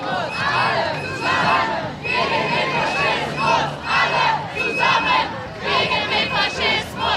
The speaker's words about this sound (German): Neben der Parteitagshalle eine große Protestdemo.